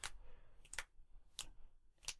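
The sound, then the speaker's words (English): Fingers snap in a game, giving four sharp, faint clicks at roughly steady intervals over low background hiss. “He's also doing that, like, 90s gang snapping fingers as he approaches.”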